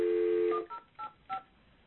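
DTMF keypad tones on a telephone line as a number is dialed: a steady dial tone cuts off, then three short, evenly spaced beeps follow, all fairly faint.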